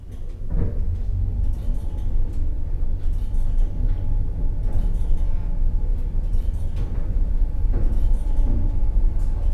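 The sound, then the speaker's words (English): Elevator doors close and the lift begins to rise: a steady low rumble runs throughout, with a few dull knocks and clunks breaking through the hum. “Please mind the doors. Doors closing. Going up.”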